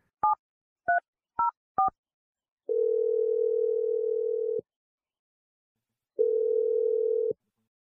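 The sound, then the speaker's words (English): A phone number being dialed: four short dual-pitch keypad beeps in quick succession, then two long, steady, low ringing tones with a silent pause between them, clean and without voices. “Let's just dial Sean's number and we'll see what he has to say.”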